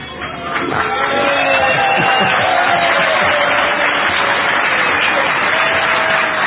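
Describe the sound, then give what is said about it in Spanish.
Audience cheering at a live show in Adrogué: a dense roar of shouting and cheering voices swells within the first second, then holds steady and loud throughout. “Al decir yo la palabra Adrogué, se supone que el público presente debe estallar en vítores.”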